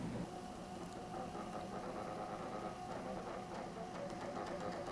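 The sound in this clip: Steady mechanical whirring and buzzing from a Dominion voting machine printing its results after the polls are closed, a continuous, even drone with no pauses and no voices.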